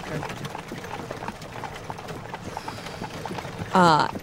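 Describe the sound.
Horse hooves clip-clop as riders leave an inn, an even, quick trot of many hoofbeats running throughout, with a brief louder burst of sound near the end.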